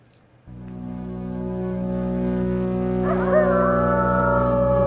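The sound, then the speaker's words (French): Wolf howl: a long, sustained cry that swells and wavers in pitch before holding a steady tone, loud over a low, continuous drone. “Et sur le cri du loup à 16h12 sur France Culture”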